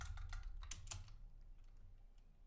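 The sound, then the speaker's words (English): Quick typing on a computer keyboard: a dense burst of crisp key clicks thins out into a few scattered, faint taps. Quiet, with no talking. “Let me see if we can do. Let's type in salary cap”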